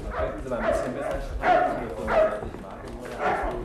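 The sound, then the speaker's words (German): A large dog barks outside a door, letting out a few moderately loud barks spaced roughly a second apart while people talk over them. “Mach bloß die Tür zu! Solange ich diesen Schrank vor deinem Köter da draußen sehe, fühle ich mich meines Lebens nicht mehr sicher.”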